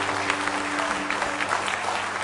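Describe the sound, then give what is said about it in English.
A church audience claps their hands in praise during a service, producing dense, steady applause that holds at an even loudness throughout. “a good hand clap of praise.”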